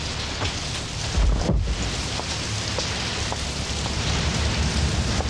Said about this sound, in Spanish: Está lloviendo.